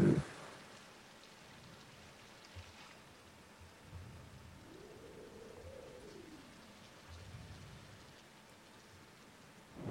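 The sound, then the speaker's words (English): Rain falls in a video game, a faint, steady hiss of patter running without break, with a soft low hum rising and falling briefly in the middle. “Now she's like stuck over here in the rain.”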